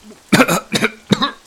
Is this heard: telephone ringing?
no